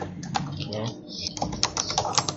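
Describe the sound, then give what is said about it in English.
Typing into a text chat on a computer keyboard: a quick, irregular patter of many sharp key clicks, with a faint voice underneath. “Anybody ever had problems typing into the text chat like that before?”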